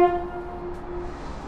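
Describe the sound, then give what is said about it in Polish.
A train sets off on an unscheduled run. A short tonal horn blast sounds first and fades quickly, then a steady, low mechanical rumbling of the moving train continues. “No i niekursowy pociąg widmo ruszył w drogę do Dębicy.”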